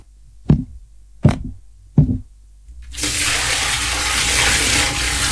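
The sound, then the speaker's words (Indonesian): Water splashes in a bath tub filled with boiled water for bathing. Three sharp knocks come first, then a loud, continuous rushing wash of water holds steady until the end. “Ibu, airnya sudah siap. Sekarang ibu masuk ke dalam bak itu dan mandi ya.”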